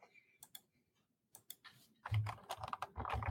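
Keystrokes on a computer keyboard as a new post is typed in a team chat channel: sparse, irregular clicks at first, then a denser, louder run of typing.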